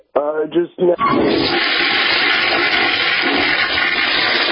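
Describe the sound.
A toilet flush used as a sound effect: a brief voice, then a loud, rushing swirl of water that starts abruptly and holds steady to the end.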